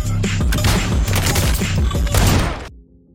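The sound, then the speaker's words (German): Rapid automatic fire from the MX9 in the video game Warzone 2: one dense, loud, continuous burst lasting under three seconds that cuts off abruptly, leaving a low hum. “Wir schauen uns heute einmal die AUG an. Genauer gesagt, die MX9 ist eine sehr, sehr bekannte Waffe in Warzone 2 und diese Waffe schauen wir uns heute mal mit dem Movement dazu etwas an.”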